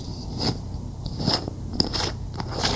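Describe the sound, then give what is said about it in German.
Twisting open a screw-cap wine bottle gives a crackling, crunching rasp as the metal seal gives way. A few sharp clicks stand out against continuous scraping. “Okay, zugegeben, wenn ich einen Wein aufmache, hört es sich meistens so an.”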